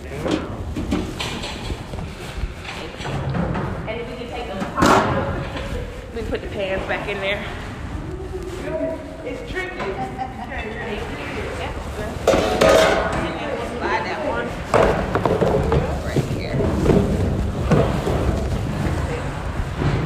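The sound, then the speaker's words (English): Metal chafing dish pans clatter as they are handled and put away while catering for a 180-person event, with a few sharp clanks under steady conversation. “Put the pans back in there.”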